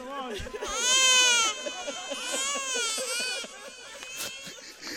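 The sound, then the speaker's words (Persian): A baby cries loudly in long, wavering wails broken by short sobbing catches. The crying is continuous for several seconds and heard on its own. “نه، این گریه ها رو نباید گذاشت، مادرش نگران میشه. پاشو ببر ابراهیم، مادر نگران میشه.”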